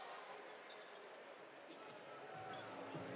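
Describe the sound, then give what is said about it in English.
A basketball dribbled on the court during a Jazz vs Lakers NBA game: steady bouncing blended into a dense wash of crowd noise. “Jazz will dribble it out.”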